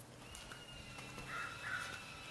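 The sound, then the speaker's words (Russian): Faint bird calls outdoors on a morning in Santa Cruz: a few harsh, cawing notes over low steady background hiss, with a thin continuous buzz running underneath. “Да, друзья, утро, Санта-Крус. Птички поют, электропила где-то жужжит.”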